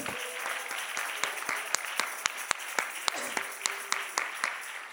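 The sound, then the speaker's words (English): A church audience clapping their hands to the Lord during a sermon, many sharp, rhythmic claps standing out above a dense bed of crowd applause that continues steadily throughout. “If you need a healing, oh, come on, clap your hands to the Lord.”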